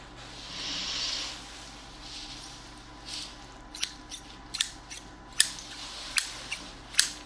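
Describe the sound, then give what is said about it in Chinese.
New, unused Nepalese scissors are handled: soft rustling at first, then a series of crisp metallic clicks and snips at an irregular pace, fairly quiet with no voices. “这把新买的剪刀，尼泊尔的，还没用过”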